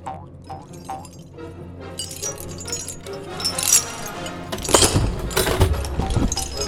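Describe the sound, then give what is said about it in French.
Metallic jangling and clinking of keys stolen from a guard as they unlock a prisoner's cell. Busy rattles and clinks build in loudness over several seconds. “j'ai dérobé les clés du garde-choum et m'en vais vous délivrer.”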